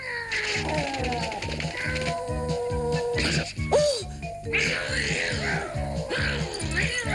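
A cat meows and yowls in a drawn-out caterwaul while being egged on to fight, the cries wavering in pitch over a steady rhythmic pulse that runs throughout.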